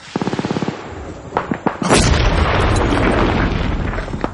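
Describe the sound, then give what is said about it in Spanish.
Hand grenades explode among sandbags shielding a bunker in a WWII war film battle. A rapid burst of gunfire comes first, then a few sharp blasts give way to a loud, sustained, rumbling roar. “Varias granadas explotan entre los sacos terreros que protegen el búnker.”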